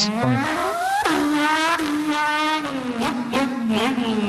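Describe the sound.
A voice imitates a racing car engine with the mouth, a loud, buzzy, continuous whine whose pitch repeatedly climbs and drops sharply, like revving and gear changes, with no words spoken.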